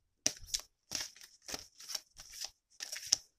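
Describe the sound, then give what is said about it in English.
A card pulled from a deck gives a series of short, crisp papery rustles and swishes in quick bursts, quiet and separated by brief silences. “And I have one last card that I will be pulling.”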